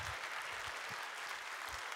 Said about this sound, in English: let's give Michael Ramsden a warm City Church welcome as he comes on out.